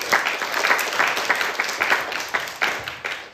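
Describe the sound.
Applause rises from a church audience during a service, a dense patter of many hands clapping steadily for about three seconds with no voices over it.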